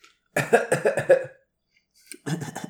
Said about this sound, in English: They have a doctor who can give me an inhaler, treat my cough.